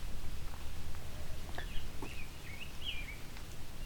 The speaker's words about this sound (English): So this one's singing quietly to himself.